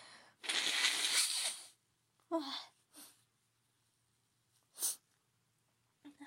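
A loud nose blow from someone with a streaming runny nose: one long, forceful honking blast, followed by several shorter, sharper snorts spaced out with silence between them.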